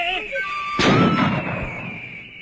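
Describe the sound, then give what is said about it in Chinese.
A single sharp gunshot bursts out after shouted voices. The loud crack rings briefly and then fades over the following second. “开枪！”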